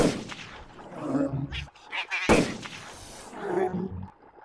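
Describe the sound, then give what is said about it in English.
A sharp, loud gunshot cracks out, fired at a creature, standing out against a continuous low rumbling, growl-like noise that rises and fades around it. “What the hell? You just shot it.”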